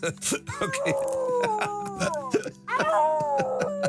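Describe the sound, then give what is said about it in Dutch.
Several voices howl together in imitation of dogs or wolves, drawn-out wavering cries that slide up and down in pitch, overlapping one another with a brief pause before a final loud group howl. “Moet ik dat als wolvengehuil interpreteren of als instemmend geblaf?”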